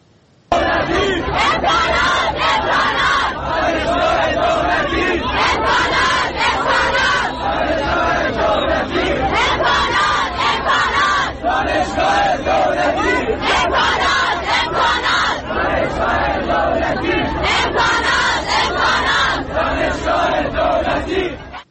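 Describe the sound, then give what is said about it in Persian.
A crowd of students from Hormozgan State University protests a lack of campus facilities with loud, continuous massed chanting and shouting. The voices stay dense and steady throughout, with no break. “در این هفته شماری از دانشجویان دانشگاه دولتی هرمزگان در اعتراض به کمبود امکانات دست به تجمع زدن.”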